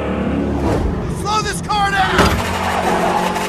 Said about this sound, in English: But if you listen to it, it sounds like the car is revving up as if the foot is on the gas.